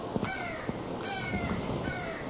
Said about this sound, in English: My apology if the crows outside are getting on the tape.